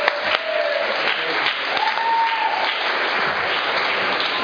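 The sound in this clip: Audience applause welcoming a speaker at a recovery group meeting: dense, steady clapping from many hands, sustained evenly throughout without voices over it.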